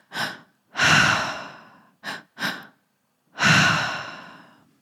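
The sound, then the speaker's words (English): Breathwork through the mouth: two quick, sharp inhales followed by one long, sighing exhale, preceded by an earlier short breath and long exhale. The breaths are clear and breathy, with silence between them and no speech. “the tri-active breath. So that is two inhales through the mouth and an exhale out the mouth.”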